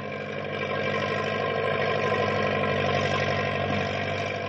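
Engine of a snowcat tractor pushing through snow drifts, a steady, unbroken low rumbling drone with a constant pitch and level for the whole stretch, with no talking.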